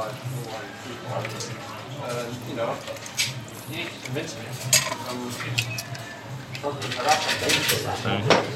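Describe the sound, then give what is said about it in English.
Bar tools and glassware clink and rattle as a bartender free pours a dry martini with vermouth behind a bar. Many light metallic clinks and knocks, some sharper and louder near the end, are heard under steady talk. “we are free pouring behind the bar, you know, showing the guests that we know exactly what we're doing here. Sometimes we get a wee bit lucky, depends how busy it is, you know. So I'm going to pour about 50”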